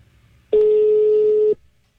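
Telephone call signal on a redial: a single steady, mid-pitched electronic tone that sounds loud and alone for about one second before stopping.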